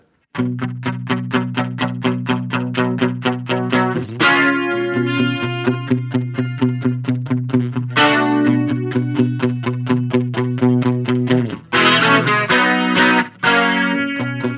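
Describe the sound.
A 1980s-style synthesizer sound with effects, playing fast repeated staccato chords in a steady pulsing rhythm, broken by a few brighter, sustained chords.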